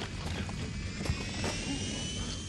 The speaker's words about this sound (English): and then you got this plane. How did you know this engine was going out?